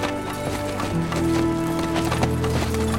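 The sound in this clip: Mules clip-clop steadily as they pull a rough-riding wagon in poor shape, a continuous rhythmic clatter of hooves with sustained tones humming beneath.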